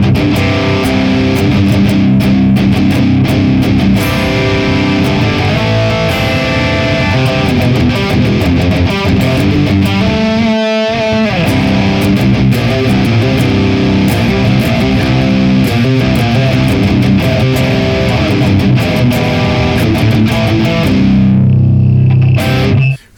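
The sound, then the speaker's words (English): Electric guitar played through a boost pedal feeding a Buzzster Giant drive pedal gives a loud, thick, saturated overdrive. Sustained chords and riffs continue almost without a break, with one brief gap near the middle and a ringing stop at the end. “it sounds like when we add in the Dan and Mick boost into drive Buzzster Giant.”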